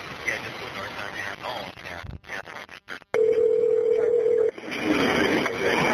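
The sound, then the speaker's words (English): A telephone dial tone sounds during an emergency call, a steady single-pitched hum lasting over a second, set among noisy, crackly line sound and muffled voices. “You're going to hear a dial tone in the phone ring.”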